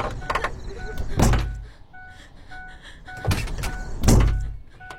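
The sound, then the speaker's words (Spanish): Knocking on a car door, heard as a few dull, heavy thuds separated by pauses, with lighter quick taps at the start, over a low, steady background hum. “Chris golpea la puerta del auto y despierta a Sam.”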